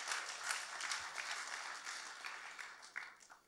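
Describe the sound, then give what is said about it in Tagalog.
Applause from a church audience during a Filipino sermon, a dense, steady patter of many hands clapping that holds throughout at fairly even loudness, with a few sharper claps standing out. “Come on, palakpakan natin yung Panginoon.”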